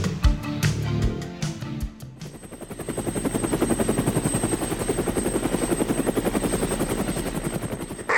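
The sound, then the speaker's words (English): A helicopter flies over Central Florida. After a short, different opening, a loud, steady, fast rotor chop sets in, with a thin high whine running above it the whole time. “Nick sets off on helicopter to track an elusive animal through its native habitat”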